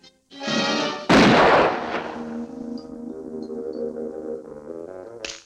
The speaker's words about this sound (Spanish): ¡Dispárame otra vez! ¡Lo disfruto! ¡Adoro el olor a las plumas quemadas! ¡Y a la pólvora y a las balas!